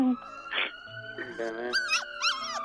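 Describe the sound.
A dog whimpers and whines in high, wavering cries, with people talking softly over it.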